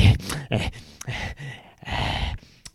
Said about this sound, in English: Take a deep breath.